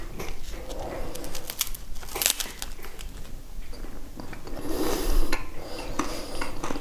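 Breakfast being eaten: steady rustling and crinkling with soft clicks and clatter of dishes, fairly even in loudness throughout with no speech.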